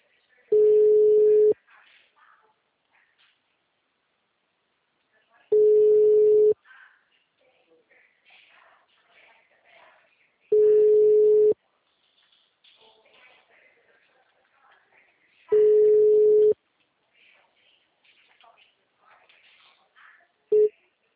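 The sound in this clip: A telephone line tone heard after a call drops: four long, steady mid-pitched beeps about one second each, spaced roughly five seconds apart, then the brief start of a fifth, with faint scattered noises in the gaps.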